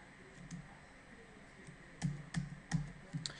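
Faint typing on a computer keyboard while text is entered into a text object, with a few soft key clicks spread across the second half over a quiet hum.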